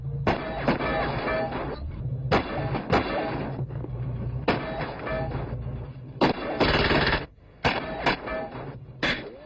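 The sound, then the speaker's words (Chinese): Gunfire from a Type 56 semi-automatic rifle: several sharp, loud bursts of shots come at uneven intervals over a steady low droning background. “根据调查，四零七案件与四零八案件中所使用的枪支，正是三三幺事件中被抢走的五六式半自动步枪。 放枪！”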